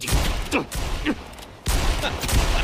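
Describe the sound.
Gunfire aimed upward from below crackles in a rapid, ragged volley of loud bursts over dense noise, with a brief lull in the middle before the shooting resumes.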